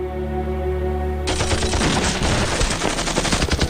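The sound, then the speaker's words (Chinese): A frenzied burst of gunfire from a rear battle-police squad in a civil-war battle cuts in after a steady tonal drone, then keeps going as dense, rattling rapid shots to the end. “后面的督战队就是一阵疯狂射击”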